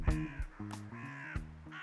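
Crows caw in the city of Troy, a few harsh, raspy calls in quick succession, fairly faint and with no talk.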